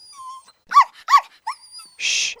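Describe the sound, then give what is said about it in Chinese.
A dog gives three short high yelping barks, evenly spaced, then one harsher noisy burst, alone without talk. “别叫了。”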